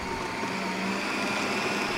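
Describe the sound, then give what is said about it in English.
A blender whirs as it blends dates, almonds, oats, nut butter and cacao, giving a steady, fairly faint motor whine that holds an even pitch and level throughout, with no talk over it. “In a blender are dates, almonds, oats, nut butter, and cacao. So a blend of fats, proteins, and carbs.”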